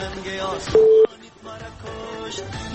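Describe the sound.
A telephone line tone sounds as a phone-in call connects, a single loud steady tone of about a third of a second, set among faint voices over the line before and after it.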